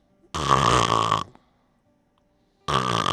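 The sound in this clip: A person imitates the heavy snoring of a fully blocked airway, breathing through an open mouth: one loud, rasping, buzzing snore, a short silence, then a second snore beginning at the end.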